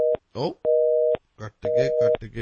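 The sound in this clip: Telephone busy signal after a caller's call is cut off: a steady low tone in about three evenly spaced pulses, with a voice talking in the gaps between them.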